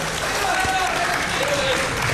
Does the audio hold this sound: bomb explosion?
no